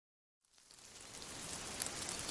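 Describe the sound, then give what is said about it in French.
Heavy rain falling in big drops begins after a short silence and swells into a steady, faint hiss of dense drops, with a few sharper impacts standing out near the end. “Plic, ploc, il pleut à grosses gouttes.”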